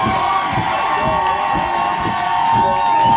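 A concert audience cheers for a band: sustained loud crowd cheering with whoops and high shouts, steady and unbroken for the whole stretch.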